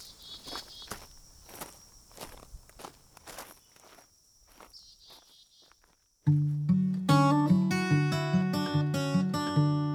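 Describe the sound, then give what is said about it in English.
A hiker's footsteps as they set off with a loaded backpack toward Durango: many steady crunching steps at a brisk, even pace, after which loud rhythmic music begins. “I surveyed my final campsite with satisfaction, lifted the pack onto my shoulders, and started walking toward Durango.”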